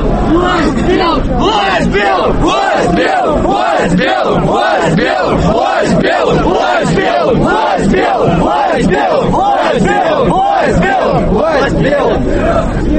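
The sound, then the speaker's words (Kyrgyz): Marchers at a Russian nationalist march chant slogans in unison, a loud crowd voice pulsing in a steady, regular rhythm of repeated shouts that carries on without a break. “Марш топ-топ болуп бөлүнүп, колонналар акырын жылып, катышуучулар урандарды кыйкырып жатышты.”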